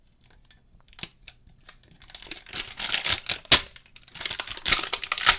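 Plastic packaging being cut open with a knife: irregular crinkling, snipping and tearing bursts that begin sparse and faint, then grow denser and louder toward the end, with no talk.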